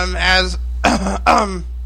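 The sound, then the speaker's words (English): A person clears their throat in three harsh, raspy bursts. The first is longest and most voiced, followed by two shorter rough grunts, all loud and with no other sound. “let me clear my throat there.”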